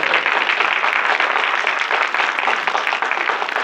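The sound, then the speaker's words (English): Applause sound effect played from a record: a steady, dense wash of clapping at even loudness throughout, with no voices. “You really play that applause record good there.”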